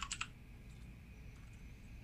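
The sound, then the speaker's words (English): Typing on a computer keyboard as a website name is entered into a browser: a quick burst of a few clicks at the start, then sparse, fainter taps over a steady low hum. “types in P what comes up on his browser”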